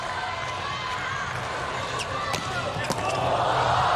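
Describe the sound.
A volleyball serve struck for an ace by Slovenia's team during a match, heard as brief sharp ball impacts over steady crowd noise while commentators talk.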